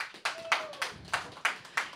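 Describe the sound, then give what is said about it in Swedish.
Applause from the audience at a live talk event, heard as six separate hand claps in a fairly steady rhythm, faint and crisp, with a brief soft tone early on. “En varm applåd.”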